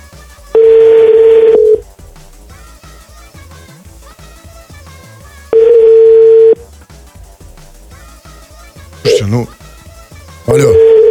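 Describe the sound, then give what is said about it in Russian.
Steady telephone tone heard while someone dials a number, sounding in two long, loud, even blocks, each about a second long, followed by two shorter tone bursts. Faint background voices run beneath it. “Да как не туда звоню? Я ее номер набираю.”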